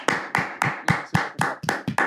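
Hand clapping to celebrate a fourth anniversary: a steady run of sharp, evenly spaced single claps, each crisp and distinct, with no talk.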